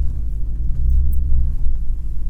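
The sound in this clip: A van engine rumbles loudly while driving in low gear down a slope, a deep, steady growl that swells and eases slightly with no voices over it.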